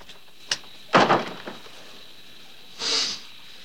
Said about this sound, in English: He pauses for a moment, then makes his way across some stepping stones to the front door and shuts it.